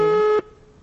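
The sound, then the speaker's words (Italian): A steady telephone tone holds for under half a second while a number is dialed, then cuts off abruptly, leaving only faint line hiss. “formo un numero”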